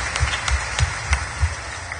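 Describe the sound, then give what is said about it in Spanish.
A church audience clapping for Jesus Christ during a Catholic Mass, with rhythmic claps on an even, steady beat, each one carrying a soft low thump. “Demos palmas a Cristo Jesús, queridos hermanos.”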